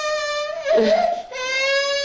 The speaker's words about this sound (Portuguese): Pronto, olha, não vamos chorar, está bem?